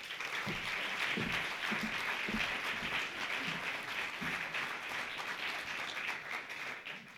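Audience applause welcoming a political satire performer from Southeast Alaska to the stage, a steady, fairly faint wash of many hands clapping that holds evenly and tapers slightly toward the end.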